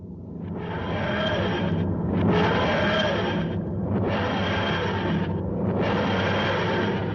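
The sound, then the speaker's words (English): A voice imitates a sci-fi time machine's wheezing, groaning materialisation sound as if it were straining with the parking brake on: four long, loud, rasping swells in an even rhythm, separated by short gaps. “TARDIS with the parking brake on. That's right. Good. It's not supposed to make that noise”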